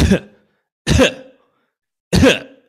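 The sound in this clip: A person imitates a cough with three short, raspy vocal bursts, evenly spaced and fairly loud, with no other sound between them.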